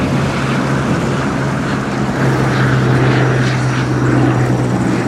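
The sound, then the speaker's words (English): A propeller plane's engine drones as it glides down to land on a bush runway in Northern Kenya: a loud, steady roar with a constant low hum running unbroken from start to finish. “The plane glides toward the ground. It lands.”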